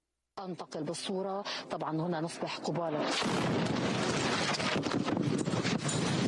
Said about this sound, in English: several journalists came under artillery fire from Israel as they reported from the Lebanese border village of Yarun. The attack wounded an Al Jazeera cameraman and damaged equipment. A Lebanese television crew was broadcasting live during the attack.